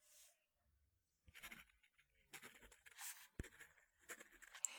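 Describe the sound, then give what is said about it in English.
A pen scratches out a note by hand in faint, irregular strokes, short scrapes and rustles separated by quiet pauses. “Let me just write this note down.”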